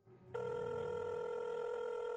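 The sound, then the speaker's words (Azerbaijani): A telephone rings with a steady electronic tone that cuts in abruptly after a brief quieter moment, then holds loud and unbroken to the end. “Onunla telefonda danışmalı oldum.”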